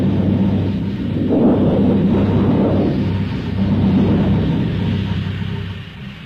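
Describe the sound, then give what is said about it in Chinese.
Wind and thunderstorm sound effect in a Chinese radio drama: a continuous, loud, low rumble of rushing wind and thunder that swells and eases in long waves, with no speech. “第三幕，风雷闪电刚过，接着下了一场暴雨。”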